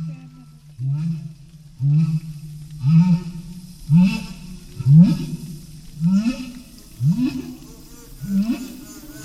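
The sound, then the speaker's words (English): A whale vocalizing underwater at dawn: a regular series of low, resonant calls, roughly one per second, each sweeping upward in pitch with rich overtones, over a faint hiss. “The conditions are really getting very good. There's one whale right out in front here.”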